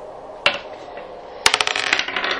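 Dice rolled for initiative in a tabletop role-playing game clatter on a hard surface: one sharp click, then about a second later another hit followed by a rapid run of bouncing, rattling clicks that settle down.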